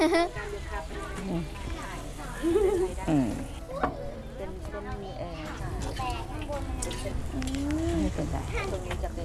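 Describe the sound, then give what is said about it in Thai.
Snacks fry in hot oil with a soft, continuous sizzle, heard underneath people talking for most of the stretch. “อ๋อแต่อันนี้คือเอามาทอดให้มันสุก ค่ะทอดให้มันสุก”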